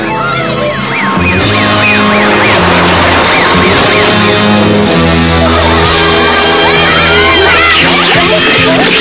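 A police car siren wails in rapid rising-and-falling sweeps, loud and mixed into dense, sustained background music in an animated cartoon scene.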